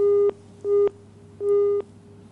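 Telephone busy tone after a dropped call on a phone-in line: three steady, mid-pitched beeps separated by short gaps, with no talk over them.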